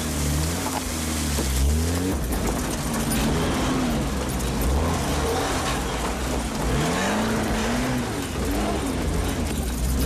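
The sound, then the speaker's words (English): A car drives into the woods, its engine running continuously and loudly, with the engine note repeatedly rising and falling. “Kate drives right into the woods, searching for Phil.”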